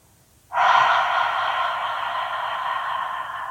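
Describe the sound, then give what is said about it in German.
Deep, full exhalation, a single long breathy rush of air that starts abruptly after a short silence and carries on steadily for about three seconds, loud and close with no speech. “Tief und vollständig ausatmen.”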